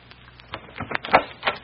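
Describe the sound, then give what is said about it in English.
Knocking on a dressing room door: a few light, separate taps of uneven spacing, each a short sharp rap, with no voices over them. “Now, as Kate taps on the door of Tony Fascina's dressing room.”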